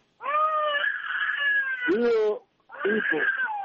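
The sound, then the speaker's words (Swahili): A baby crying near a radio caller's phone, heard over the line as loud, drawn-out harmonic wails: two strained cries running into each other, a brief silence, then a third wail, with no talk. “kae mbali kidogo na simu yako, kuna mtoto analia hapo kidogo naingilia matangazo yetu tafadhali”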